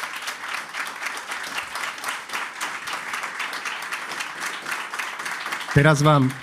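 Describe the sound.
An audience applauds during a televised political debate, with moderate, evenly packed clapping that runs steadily for several seconds until a voice cuts in and begins speaking near the end.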